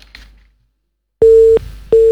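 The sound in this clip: A telephone busy tone sounds after a caller's line drops: following a faint brief noise and silence, two loud, steady mid-pitched beeps repeat in an even rhythm, the second cut off at the end.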